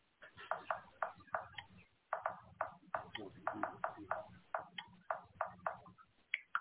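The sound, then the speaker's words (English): A baseball bat is tapped against a hand in a steady run of many light, crisp knocks, about two to three each second, with short gaps between groups. “Oh, he's hitting the baseball bat in his hand.”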